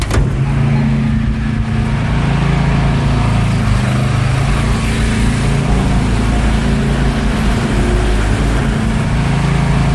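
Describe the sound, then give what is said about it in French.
A diesel generator runs on a street in Kyiv with a steady, rough engine drone. Its heavy low hum and broad mechanical noise hold an even level for the whole stretch. “c'est le bruit des générateurs. Donc ça, c'est un générateur diesel. Donc là, vous entendez le bruit qui est très pénible à vivre au quotidien”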